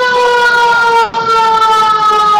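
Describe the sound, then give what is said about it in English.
A loud siren at a holiday dance event sounds a steady wailing tone rich in harmonics. It dips briefly in pitch and level midway, then holds again to the end. “And nothing screams holiday like a siren.”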